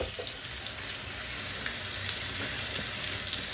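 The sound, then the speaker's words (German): Two filleted veal shanks, still on a thick bone, sear hard in a hot pan with a steady, loud sizzle and crackle that holds throughout, with a few sharper pops and no talk. “Jetzt ist, sind gerade die zwei Kalbshaxen. Die müssen Sie sich filetiert vorstellen, schon aus wie Schnitzel mit einem fetten Knochen drinnen. Die werden jetzt scharf angebraten ja.”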